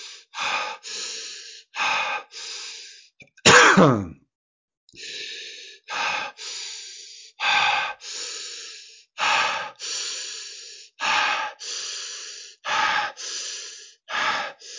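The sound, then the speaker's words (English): Deep, forceful breathing in a steady exercise rhythm, with many sharp, hissing breaths in a regular cycle. One deeper gasping inhale stands out early, and the breaths are separated by short silences. “What I'm doing now is actually better. Focus on the inhale.”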